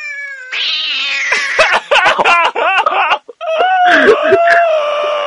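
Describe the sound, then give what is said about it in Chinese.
A cat meows and yowls loudly in a run of drawn-out, wavering cries with brief breaks between them, lasting about five seconds. “刚刚那是猫叫吗？很像猫在”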